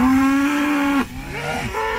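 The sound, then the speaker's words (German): Cows that have escaped onto the B111 road near Schmollensee on Usedom moo loudly. One long, steady, deep moo lasts about a second, followed by softer, lower lowing. No one speaks. “Wegen Kühen auf der Fahrbahn geht bei Schmollensee B111 gerade nichts.”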